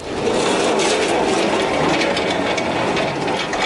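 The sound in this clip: Delivery vehicles drive off in a voice-controlled package delivery game, giving a loud, steady rumble of engine noise that holds constant throughout.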